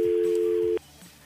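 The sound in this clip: A telephone line tone sounds after the caller on the other end has hung up: one steady, loud, mid-pitched tone holds unbroken for just under a second, then cuts off abruptly into quiet.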